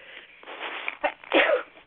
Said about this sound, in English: I'm going to sneeze here. That's why I'm hesitating.